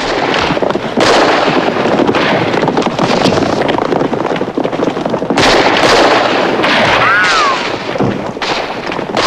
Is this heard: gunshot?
yes

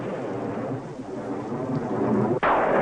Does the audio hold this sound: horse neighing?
no

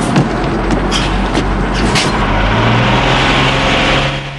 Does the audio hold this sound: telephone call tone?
no

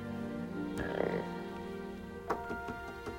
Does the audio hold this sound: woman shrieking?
no

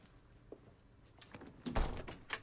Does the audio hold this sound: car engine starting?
no

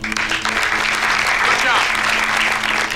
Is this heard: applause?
yes

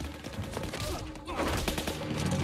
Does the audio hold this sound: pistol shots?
yes

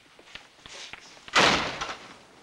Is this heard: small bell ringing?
no

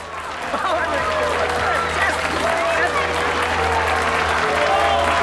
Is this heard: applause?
yes

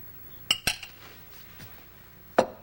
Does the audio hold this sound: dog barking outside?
no

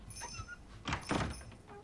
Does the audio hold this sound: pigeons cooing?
no

